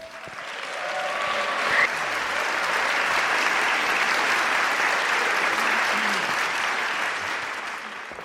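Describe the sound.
An audience applauds to welcome a speaker at an evening event in Cologne, dense steady clapping swelling quickly, holding loud for several seconds, then easing off slightly toward the end.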